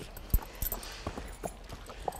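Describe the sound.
Hooves of a donkey foal walking, a few soft, uneven clops at an irregular pace, faint against a light background hiss, with no voices.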